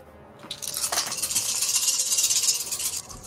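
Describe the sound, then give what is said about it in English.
Many dice clatter and rattle together, a roll for fire damage in a tabletop role-playing game. The jangling is fairly faint and continuous, swelling for over two seconds with no voices. “That's a lot of dice.”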